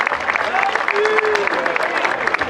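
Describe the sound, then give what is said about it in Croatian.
An audience applauds to greet the cavalry riders and flag bearer at a traditional horseback procession, with dense, steady clapping and crowd noise running continuously throughout. “Pozdravimo ih jednim aplauzom.”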